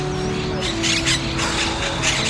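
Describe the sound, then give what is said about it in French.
A pigeon among birds being fed, with harsh squawking calls and a few rough, noisy bursts over a constant low hum, no talking. “Ah non, pas toi le pigeon.”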